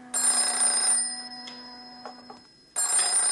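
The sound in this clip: Telephone bell ringing in a radio play: a bright, loud ring lasts nearly a second, then falls silent for a long pause with only faint small noises before a second ring starts.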